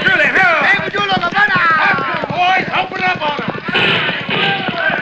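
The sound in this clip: Horses galloping, with a rapid, steady run of hoofbeats that continues throughout at a loud level while voices sound over them.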